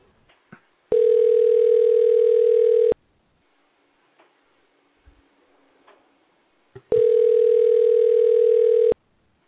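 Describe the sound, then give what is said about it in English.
A steady telephone tone sounds as a call is dialed, in two long even bursts of about two seconds each separated by a gap, with faint clicks and low noise between them. “Okay, and we're dialing. Here we go.”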